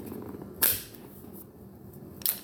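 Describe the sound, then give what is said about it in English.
Dry firing a gun loaded with snap caps at home: two sharp, metallic clicks of the trigger and action, well separated, over a quiet background with no voices. “End of the day, kiddos in bed, so I've loaded up this magazine with snap caps, aka dummy bullets, and now it's time to practice dry firing.”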